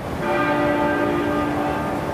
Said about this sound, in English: Bells tolled 96 times, once for every year of the Queen's life